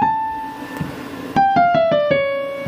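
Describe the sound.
Piano playing the opening of Bach's Toccata and Fugue: a loud held note rings, then a few quick, resonant notes step downward one after another.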